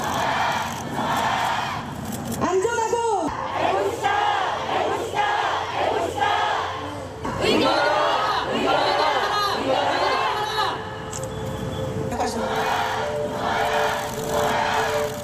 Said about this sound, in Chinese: 数以万计的小学老师于是走向街头罢课，要求在教学专业岗位上获得更好的保护。下面是抗议者的声音。